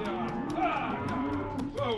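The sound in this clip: Cattle low and moo as cowboys on horseback herd them toward a rodeo, with several drawn-out harmonic calls overlapping at a steady, moderate loudness throughout.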